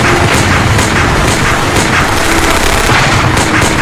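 Loud, sustained gunfire rattles without pause as soldiers fire in battle, a dense wall of rapid cracks and booms.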